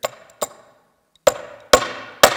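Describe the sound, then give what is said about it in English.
Sharp metallic blows of an adjustable wrench used as a hammer to drive a nail into a piece of wood: five loud strikes, two close together, a pause, then three more, each with a brief ringing decay. “drive a nail into this piece of wood. Okay, like there's a certain tool for that, right? We all know that. And so obviously, it's an adjustable wrench. And if I put this here,”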